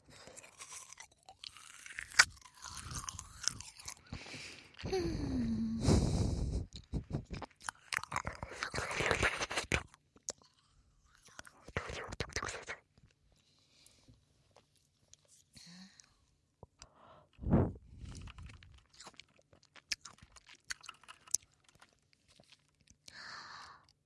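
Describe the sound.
Crunching and chewing on a frozen grape-juice treat: many irregular, crisp bites and grinding crunches, some dense clusters and some softer, separated by brief quiet gaps.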